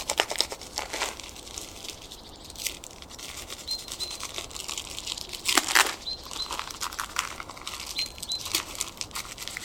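A baby's diaper crinkles as it is fastened with tape tabs. The rustling is continuous, with a few sharper crackles and tearing-like bursts, and no talk.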